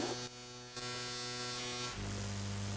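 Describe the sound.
Electrical mains hum picked up from a power socket by a synth pickup: a steady buzzing drone rich in harmonics that dips briefly near the start, then turns harsher and brighter toward the end, with no voices.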